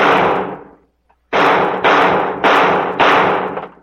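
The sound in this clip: Five loud gunshots as someone shoots the knobs off a street sign: one sharp crack, a brief pause, then four more in quick, even succession, each with a short fading tail.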